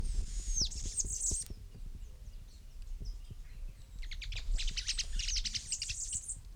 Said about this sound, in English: Two birds calling.